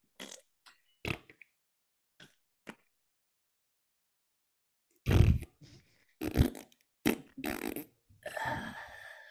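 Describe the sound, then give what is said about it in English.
Mouth-made fart noises, a voice imitating flatulence: a few short faint sputters at first, then a run of louder, longer raspberry bursts in irregular succession. “I like how we're complaining that these are made for children when we just made fart noises for 15 minutes.”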